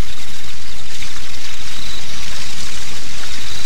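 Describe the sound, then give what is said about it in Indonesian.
Water pours steadily from a spout while someone washes their hands and face under it. The loud, hissing rush of the flow carries on evenly throughout, with no talk. “Ayolah, saya akan mencuci tangan dan wajah di pancuran itu”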